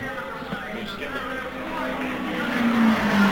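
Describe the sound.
A race car at the Indianapolis 500 roars past in a steady, loud engine drone whose tone dips slightly lower toward the end.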